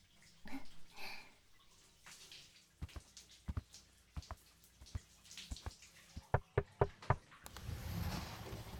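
Water splashing and dripping as someone showers in a bathroom: faint, with a series of sharp taps and drips, then a louder, steady wash of running water near the end. No voices.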